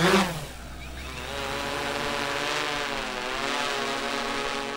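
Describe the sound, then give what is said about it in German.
A minivan drives out to a farm field, its engine giving a steady, fairly loud droning hum with layered harmonic tones that waver slightly in pitch, and no voices are heard. “Mit einem Minitransporter geht es raus aufs Feld.”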